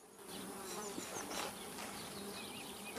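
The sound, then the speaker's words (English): Bees in a dense cluster buzz inside a chestnut tree trunk, a thick, steady, continuous drone of many wings that holds at an even loudness throughout with no voices. “In these chestnut tree trunks, thousands of workers live around their queen. A cluster of busy bees.”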